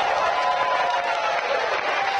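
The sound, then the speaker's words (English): A studio audience cheers and claps while doing the wave, a dense, steady roar of voices and applause. “They're showing the audience to go crazy. Hustler prior contributor. Wave. Yeah, they are. If you're wondering, yes, they're doing the wave like you see at a baseball game.”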